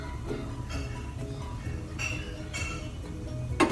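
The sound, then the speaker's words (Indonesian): A cooking pot is set out and readied to boil palm sugar in water, giving soft clinks over a low, steady background noise, with a sharper clink near the end. “Ini saya siapkan pancinya dulu. Saya kasih air.”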